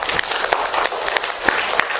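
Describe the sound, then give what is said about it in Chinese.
A church audience claps together to welcome and praise Jesus during a service. The applause is brief and steady, with a few sharper individual claps standing out. “我们一起来欢迎他，我们鼓掌赞美他好吧。”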